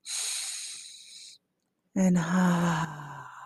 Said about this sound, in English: Let's do it a couple more times. Breathe in and exhale.